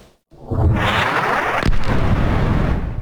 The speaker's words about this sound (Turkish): Aselsan imzalı güdüm kitleri hedeflerini başarıyla vurdu.